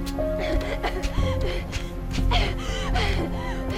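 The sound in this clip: A girl having an asthma attack during a tense dramatic scene makes gasping, strained breaths. The repeated ragged inhalations sit over a steady background tone, with faint voices around them.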